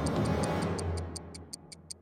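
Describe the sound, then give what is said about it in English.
Steady, evenly spaced ticking of the Doom Clock, a dozen or so crisp, high clicks over a low background hum. “Ticking. Is that ticking? Yeah, that is ticking, and it's the Doom Clock.”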